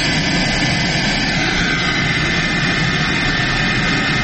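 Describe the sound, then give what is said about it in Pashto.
A private passenger plane arrives at an airport in Uruzgan province, Afghanistan, its engines a steady, loud roar that holds without a break for the whole stretch. “دا د کامیر په نوم یوه خصوصي طیاره ده چې تر دریو کلونو وروسته نن شنبه اورزګان ولایت ته راغلې”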